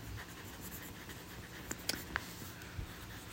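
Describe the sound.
Handwriting, someone writing notes down by hand: a faint, steady pen scratch with a few light taps and ticks, very quiet.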